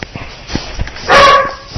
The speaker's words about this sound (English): we have a dog visiting Colleen.